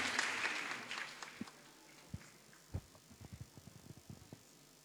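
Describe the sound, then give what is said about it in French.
Applause at a French school ceremony after pupils recite poems: a short burst of clapping that fades within about a second, then scattered single claps, faint overall. “On les acclame très fort et on leur dit merci.”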